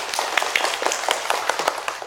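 A group of students claps to congratulate the winning team in a best heritage-ambassador award. Many separate, fairly quiet claps come in an uneven, scattered rhythm.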